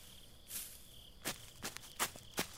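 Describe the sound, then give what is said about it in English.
Footsteps of someone running: a few quick, soft, uneven steps over a faint, steady high tone. “So much energy is being spent running. Are you going to have any left when I pounce on you?”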